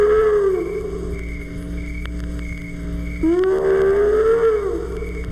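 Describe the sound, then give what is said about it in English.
A long, wavering animal howl at night, like a lonely wolf's call or a hyena's cry. Two sustained, tonal howls sound over a steady low hum; the second swoops up sharply, holds, then sinks away. “you might hear a lonely wolf's call. Or a hyena shouting at the darkness.”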